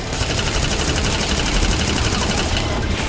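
Sustained automatic M16 rifle fire, a dense unbroken rattle of rapid shots lasting throughout, loud and harsh with no talk over it.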